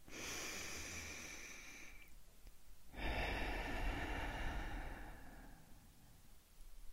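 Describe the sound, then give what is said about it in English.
A deep breath in and out: a steady, airy inhale lasting about two seconds, a short pause, then a longer, fuller exhale that gradually softens. No voices accompany it. “let's first take a deep breath in and a deep breath out.”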